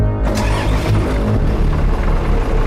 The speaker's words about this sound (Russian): Заводится большой вилочный погрузчик.